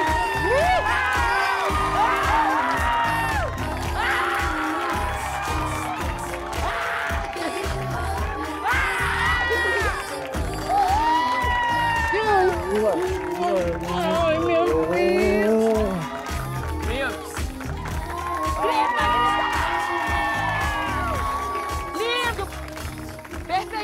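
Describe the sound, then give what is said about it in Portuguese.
A crowd cheers and shouts for an arriving guest. Excited whoops and high shouts rise and fall over a constant roar, with people talking throughout. “Eu quero gritaria.”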